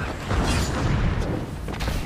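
A grenade explodes in a video game match: a heavy, low boom that spreads into a rumbling, crackling tail lasting about two seconds, with a few sharper bursts near the end.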